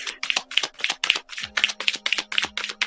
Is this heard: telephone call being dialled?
no